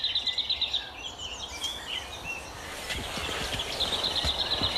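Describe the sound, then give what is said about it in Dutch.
A lesser whitethroat sings a quick, high, rattling run of repeated notes that opens the passage. Fainter chirps follow, and a second rattling burst comes near the end over soft background noise. “Wat is het voor vogel, een braamsluiper? Ja, een braamsluiper is een redelijk eenvoudig getekend vogeltje.”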